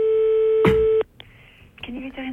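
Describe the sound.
A telephone handset is set down on its cradle: a steady electronic line tone with a clunk of the handset partway through, after which the tone cuts off and quieter sounds follow, with a voice near the end.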